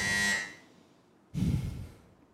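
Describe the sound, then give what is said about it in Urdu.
A quiz buzzer is pressed during a Quran recitation quiz contest, giving a brief harsh electronic buzz of about half a second that fades out. A broad noisy burst follows a moment later. Overall the sound is fairly faint. “اس بار سب سے پہلے buzzer بجایا ہے”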